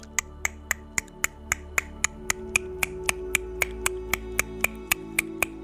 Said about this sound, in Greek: έχω το στόμα μου κλειστό σε μια πολύ ωραία θέση και χτυπάω τη γλώσσα μου στον ουρανίσκο κάνοντας αυτό